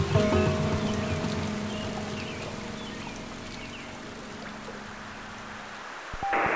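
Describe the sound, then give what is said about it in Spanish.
Rain falling steadily by a river after several days of wet weather makes a constant, even hiss with a low hum beneath it, alone without voices, and a brief clatter near the end. “Ya van varios días lloviendo y el río no se ha crecido.”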